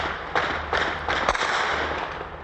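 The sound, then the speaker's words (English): Gunshots ring out at night, a few sharp, irregularly spaced cracks over a steady hiss of background noise. “Gunshots now punctuate the night.”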